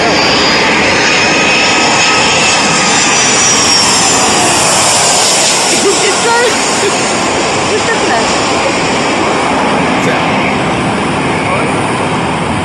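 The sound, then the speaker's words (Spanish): Loud, steady roar of an American Airlines passenger jet's engines as it lands between mountains at Toncontín airport, a dense unbroken rumble that holds for the whole stretch. “El avión aterrizando en Toncontín. ¿Ok? okay. Ahí, va el avión.”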